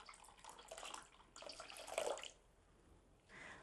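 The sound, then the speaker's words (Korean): Faint pouring of hot water into a tea dye concentrate to make a bath for soaking fabric, a running splashy stream for about two seconds, then a pause and a brief second splash. “차 원액에 뜨거운 물을 부어서 천이 잠길 수 있을 정도로 용액을 만들어줍니다.”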